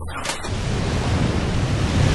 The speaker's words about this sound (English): Waves crash around a tiny island of jagged rock.